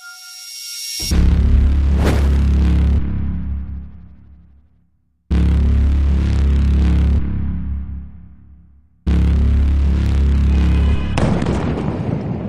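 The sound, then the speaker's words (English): Three powerful bomb blasts in Yemen, each a sudden deep boom followed by a long rumbling decay, sounding alone one after another. “A powerful blast. The detonation of an ordinary bomb.”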